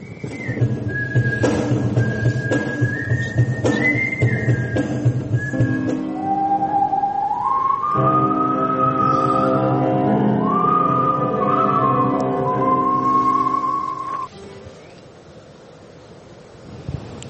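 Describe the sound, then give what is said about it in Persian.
Whistling performed at a gathering of whistlers in Japan: clear sustained melodic tones, first a higher phrase and then a lower one, held and gliding between notes over steady background noise, with no talk. “اولین گردهمایی نوازندگان سوت در ژاپن،”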